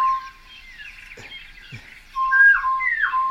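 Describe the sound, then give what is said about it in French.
A single bird gives a steady whistled call, holding clear level tones at first, then growing louder with bending, sliding whistles near the end. “Et là, pour l'instant, c'est un seul oiseau qui fait toute la frappe.”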